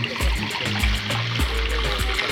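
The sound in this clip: Water poured into a mixed drink of curaçao and lemon, a steady splashing trickle lasting about two seconds over a low hum.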